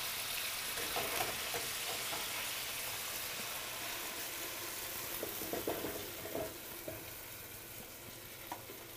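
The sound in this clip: Chicken sizzles as it fries on a gas stove, a low, steady hiss scattered with small crackles and pops throughout, with no talking.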